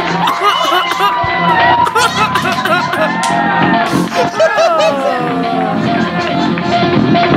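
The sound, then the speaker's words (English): Loud cheering and whooping from a progressive rock concert audience as the performers walk onto the stage. The roar is dense and continuous throughout, with scattered shouts, laughter and chatter in the crowd. “Oh, we walked up on the stage here. This is a great. Listen to that response.”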